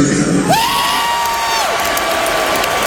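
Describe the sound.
Concert audience at a band's show on the Canadian side of Lake Ontario, cheering loudly and continuously with shouts and whoops throughout.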